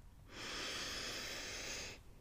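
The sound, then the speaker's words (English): A single deep, slow inhale through the nostrils, heard as a steady, airy hiss that swells quickly and holds for under two seconds before cutting off, alone with no talk. “Let's pause and take a nice, deep, conscious breath.”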